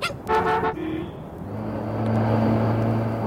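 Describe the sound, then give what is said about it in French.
A Citroën Traction Avant car honks with a short toot, then its engine drone steadily builds as it draws nearer and pulls out to overtake a taxi, with no talk over it. “Tiens, la traction avant se rapproche. Elle déboîte. Elle va doubler le taxi.”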